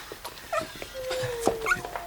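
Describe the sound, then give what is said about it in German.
A wolf from a wildlife park answers with a thin, drawn-out tonal howl that drifts slightly downward, overlapped by short higher cries and yips. The calls are fairly faint and have no talk over them. “Nein, das ist echt. Das ist ein Wolf.”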